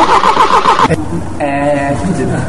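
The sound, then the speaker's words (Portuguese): A car engine starts and runs with a mid-pitched, rumbling hum that rises briefly as it revs, with a voice mixed in at the start. “É o motor de carro.”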